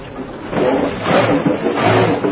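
A car engine sputters as it runs out of gas, a rough mid-pitched drone whose loudness surges and sags unevenly.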